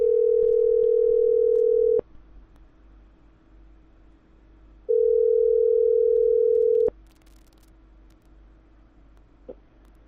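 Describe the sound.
A telephone call to a loan service rings out with two long, steady beeps separated by a pause of about three seconds, over faint line hiss and no talking.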